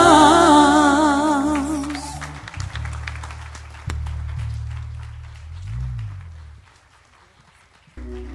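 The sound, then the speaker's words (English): Hand clapping in a church, scattered sharp claps joining in after sustained musical tones, with low held notes continuing underneath as the clapping thins out. “Clap your hands for the Lord. Make a noise unto the Lord tonight.”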